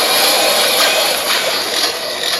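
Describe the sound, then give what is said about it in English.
An Avenger gear toy powers on with a loud, steady whooshing hiss that holds evenly for the whole stretch, with no voices. “And I'm going to power you on at the same time. So I have to hold down this triangle the whole time it's powering on.”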